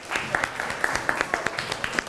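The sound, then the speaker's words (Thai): A group claps briefly on a teacher's prompt during a lesson, the claps scattered and uneven rather than a full roar of applause. “เก่งมากปรบมือให้ตัวเองหน่อย”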